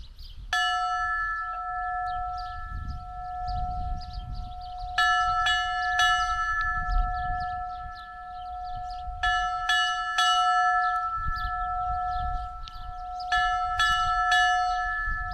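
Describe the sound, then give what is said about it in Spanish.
Church bells ring specially composed peals, created by a bell-ringers' association in Navarra to portray an eclipse. Bursts of several quick clanging strikes recur over a steady sustained bell hum, with pauses between the groups. “esos repiques específicos creados por la Asociación de Campaneros de Navarra para retratar el eclipse”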